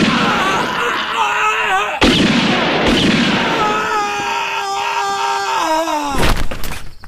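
A single sharp gunshot fired as a starting signal cracks out loudly, breaking into a dense, continuous backdrop that carries a high, sustained wailing tone.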